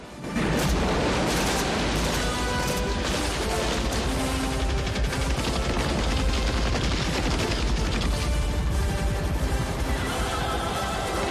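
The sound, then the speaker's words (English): Rifle fire aimed up at helicopters swooping overhead, shot by Vietnamese fighters: a dense, continuous crackle of gunfire over a heavy low rumble, loud and unbroken throughout. “Vietnamese fire up at the helicopters with rifles as they swoop again.”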